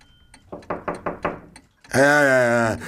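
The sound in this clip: A quick series of sharp knocks raps on a door, evenly paced and fairly loud, then a voice follows.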